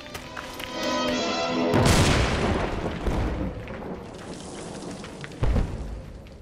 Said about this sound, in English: tell them to deploy grenades. We need to clear him out right this second. Right, Walter! Deploy frags, boys! Deploy frags! Get down, everybody!